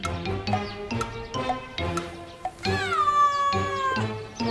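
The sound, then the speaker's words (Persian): A neighbour's cat meows repeatedly: several short calls, then a longer drawn-out meow that slides down in pitch before more short cries. “این پیشی گربه همسایه‌مونه”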